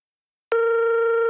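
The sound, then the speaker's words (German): A steady telephone tone heard while calling a doctor's office, starting abruptly after a brief silence and holding one constant pitch to the end. “Sie rufen bei einem Arzt an und hören Folgendes.”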